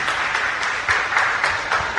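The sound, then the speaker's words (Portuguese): Applause rises in a church service right after the gospel reading: dense, steady clapping of an audience that holds at an even, moderate level through the whole short stretch. “Salve de palmas para a palavra de Deus.”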